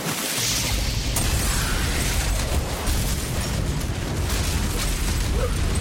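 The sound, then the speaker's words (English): A fully frozen turkey dropped into a deep fryer erupts in a roaring burst of flame, a dense, loud rush of crackling noise with deep rumble sustained for about six seconds. “Helpful tip for a tremendous Thanksgiving number one. Don't drop a fully frozen turkey into the deep fryer.”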